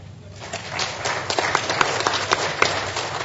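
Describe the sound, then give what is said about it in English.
Audience applause welcomes a guest being introduced to a panel: dense, steady clapping with a few sharper individual claps standing out. “I just wanted to clap louder.”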